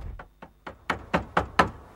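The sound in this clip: Knocking on a front door: a steady, evenly spaced series of sharp raps that grows louder toward the end, with no voices.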